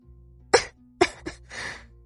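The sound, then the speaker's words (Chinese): A feverish woman with a parched throat coughs a few short, dry times in separate sharp bursts, followed by a longer rasping breath. No talk is heard. “董小希由于发烧，身体有些缺水，说话的时候嗓子干，咳了几声。”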